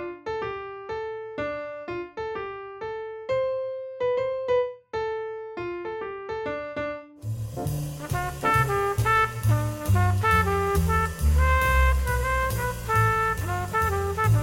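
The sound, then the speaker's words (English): A piano plays a short musical phrase built from three small segments. Crisp, separated notes give way to a denser, louder and more sustained passage in the second half. “So playing that third phrase all together on the piano, it sounds like this.”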